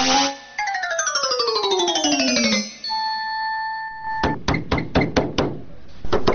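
Knocking on a door: a quick series of sharp, hard raps, preceded by sliding electronic tones and a few steady chime-like notes, with no voices.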